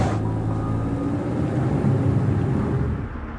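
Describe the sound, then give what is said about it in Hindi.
A car being driven gives off a dense, continuous low rumble with broad hiss above it. The sound holds steady, then eases slightly toward the end. “Ranjit car चला रहा है। उसने एक जगह पर car खड़ी की, building के अंदर भागा। अब फिर कार चला रहा है।”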